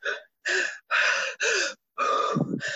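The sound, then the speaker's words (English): A voice imitates heavy, anxious breathing: five loud, rasping gasps in quick succession, with short gaps between them. The final breath is longer and drags out. “I was just breathing so hard because it worried me so badly”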